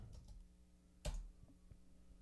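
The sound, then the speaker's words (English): Typing on a computer keyboard: a few faint key clicks around one sharper, louder tap, with no talk. “You should just type in LV, bro.”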